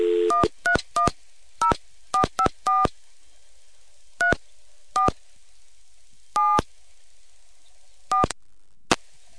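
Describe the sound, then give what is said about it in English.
Touch-tone dialing of a long-distance toll call on a coin payphone line: about a dozen short, clear DTMF beeps in irregular clusters and gaps, each crisp and evenly loud against a quiet, hissy line. “So I'll dial a toll call...”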